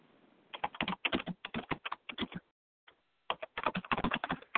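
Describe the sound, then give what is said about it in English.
Rapid typing on a computer keyboard: many crisp clicking keystrokes in a dense run, a brief pause of about a second, then another quick burst of keys. No voices. “So I'm going to type this up right now and type this question up right now”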